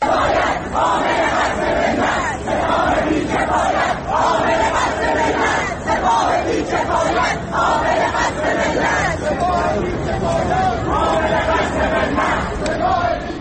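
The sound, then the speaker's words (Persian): Students chant slogans in unison at a protest in Tehran. The loud crowd voices repeat rhythmic phrases in steady bursts with short pauses between them, over a constant murmur of the crowd. “به صدای بخشی از صدای شعارهای دانشجویان در تهران گوش کنیم.”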